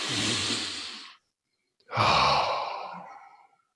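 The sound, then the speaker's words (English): One slow, deliberate breath: a long airy inhale, a brief silent pause, then a fuller sighing exhale that trails off quietly. “Before I go over there and do something, I'm going to take one conscious breath.”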